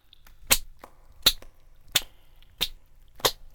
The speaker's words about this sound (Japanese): パンという音とともにお尻に軽い痛みが走ります。